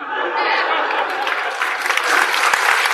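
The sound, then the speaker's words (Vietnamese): A group clapping together in celebration, a dense, continuous patter of applause that holds steady and grows a little louder toward the end. “Bé Danh kêu lớn, làm cho mọi người phải bật cười, rồi cùng nhau vỗ tay mừng.”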